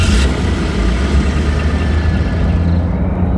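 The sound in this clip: A car engine runs as people set off to drive around a huge radio telescope. It is a steady, loud, low rumble with hiss that continues unbroken and is heard alone.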